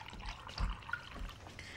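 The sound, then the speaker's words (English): Milk is poured into a glass in a kitchen, a soft, steady liquid gurgle and trickle that stays faint throughout, with no talk over it. “pours milk into a glass.”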